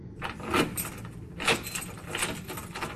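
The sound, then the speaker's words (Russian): Door lock clicking open: a few sharp clicks with light metallic rattling, spaced apart over a faint steady hiss. “Замок щелкнул”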